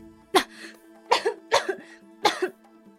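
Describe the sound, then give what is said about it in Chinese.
Wet, phlegmy coughing from a feverish patient with a lot of sputum: a few harsh bursts in quick succession, several of them doubled, rising above a faint steady tonal hum. “病人说着就一阵咳嗽，赵斌听到他咳嗽声里面的确有明显的痰鸣”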